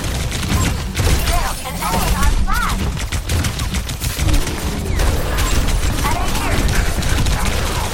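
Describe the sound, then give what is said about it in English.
Rapid gunfire from guns spammed nonstop in a video game: dense, overlapping bursts of sharp shots run steadily through the whole stretch, with voices talking now and then. “Literally just spamming guns.”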